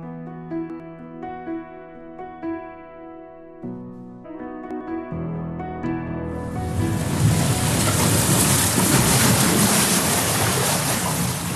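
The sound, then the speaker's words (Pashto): Oars splash in wavy water, a loud, steady rushing wash that swells in after a stretch of sustained tonal music and then carries on without a break. “چپو سره ولګی دی د اوبو ژغ د سیګل مرغله کغا سره ورک شو”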